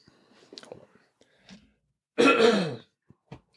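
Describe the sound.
A single harsh throat clearing, loud and rasping, set between faint breathy clicks and soft mouth noises before it and a brief quiet click after.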